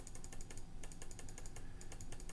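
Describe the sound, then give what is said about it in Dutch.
Computer mouse clicking: many quick, faint clicks in a fairly regular rapid stream over quiet background noise, with no voices. “Zit een beetje op muis te klikken, zoals je hoort.”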